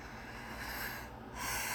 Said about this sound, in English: Listen to me breathing and just breathe along with me and relax and